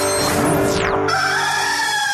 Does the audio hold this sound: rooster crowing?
yes